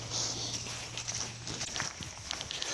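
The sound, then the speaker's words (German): Footsteps of a person walking down a steep mountain path, a steady run of soft, scuffing steps at an even pace, with no voices. “Und das ist der Weg, den ich jetzt gerade laufe.”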